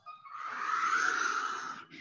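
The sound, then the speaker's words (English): A slow, airy breath during a guided movement and breathing exercise, a soft hiss that builds and holds for well over a second, then breaks off briefly before another breath begins, quiet and alone. “Exhale down. Inhale up. Last round.”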